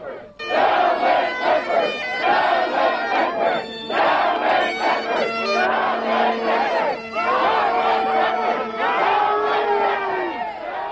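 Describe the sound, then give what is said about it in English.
A noisy crowd of teachers and civil servants demonstrates outside a hall ahead of a political rally. Shouting and whooping voices overlap continuously and stay loud throughout. “outside the hall, a noisy group of teachers and civil servants are preparing their own arrival ceremony”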